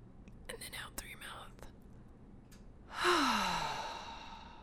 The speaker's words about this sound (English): we're going to breathe in nice, gentle, and steady in through our nose. Breathe all that oxygen into our lungs.